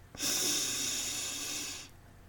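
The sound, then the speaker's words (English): A deep breath is taken during a guided relaxation exercise, heard alone as one long, steady rush of airy hiss lasting nearly two seconds and fading at the end. “Let's take another breath together. Close your eyes, hands on your laps, and let's take a deep breath.”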